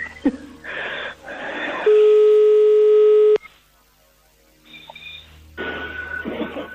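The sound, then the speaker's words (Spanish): A telephone dial tone sounds as a call is placed from a radio studio: a loud, steady tone holds for about a second and a half between bursts of noise, followed by a few shorter tones. “Estamos marcando, ¿eh? A ver si nos coge. Vale, espero que lo coja.”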